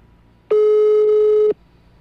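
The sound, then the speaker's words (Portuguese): A telephone call tone sounds as a number is dialled again: a single steady, mid-pitched electronic beep lasting about one second, starting and stopping abruptly, heard alone. “Vou ligar de novo.”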